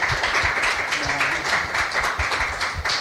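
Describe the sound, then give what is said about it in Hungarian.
Audience applause greets a guest in a café: dense, steady clapping from many hands, held at an even level throughout. “Nagyon nagy örömmel köszöntjük Borsodi Mártát, egy nagy tapssal köszöntjük őt itt a kávézóban.”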